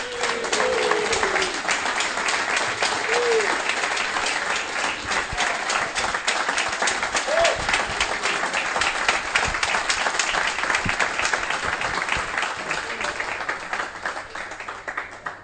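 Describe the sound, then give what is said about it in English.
A crowd applauding at Loftus Road as a former player is welcomed at a club celebration: sustained, dense clapping that holds steady and loud for the whole stretch before easing slightly at the end. “Put your hands together for Andy Sinton.”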